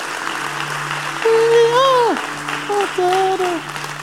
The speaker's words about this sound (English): Come on, let's give it up for him.